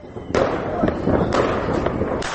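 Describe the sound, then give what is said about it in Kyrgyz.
Fireworks crackling at midnight during New Year celebrations in Bishkek: a dense, continuous crackle and rumble broken by a few sharp, louder bangs throughout. “Ал эми Бишкекте түнкү саат 12:00 башталган фейерверк салюттардын тарсылдагы бир топко басылган жок, дейт кабарчыбыз Аманбек Тилденбай.”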